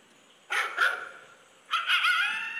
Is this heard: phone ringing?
no